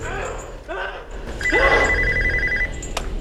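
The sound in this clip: A telephone rings in a single sustained trilling burst over background noise, with a voice heard around it.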